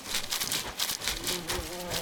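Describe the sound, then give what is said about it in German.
Bees and bumblebees buzz among shrubs in a steady, droning hum with a faint humming tone running through it, continuous and unbroken, with no voices. “So, jetzt sind wir in der Strauchschicht. Hier sind Schmetterlinge, Bienen und Hummeln unterwegs.”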